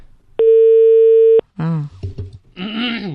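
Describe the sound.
An unanswered outgoing telephone call gives one steady ringback tone lasting about a second, then people start talking.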